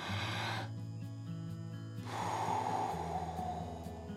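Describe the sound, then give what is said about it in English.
A deep breath is drawn in during a guided prayer, a soft breathy rush heard over sustained, gentle instrumental music tones that play throughout. “So let's draw that breath. You ready?”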